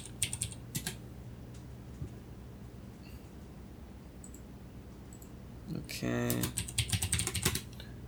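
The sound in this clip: A computer keyboard clacks as a search query for a Buffy the Vampire Slayer fan site is typed: scattered clicks at first, then a denser burst of rapid keystrokes toward the end.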